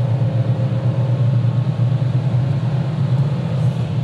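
A Porsche engine driven hard in fourth gear at 5000 rpm, a loud, steady, unbroken low drone and rumble that holds even throughout, with no talking.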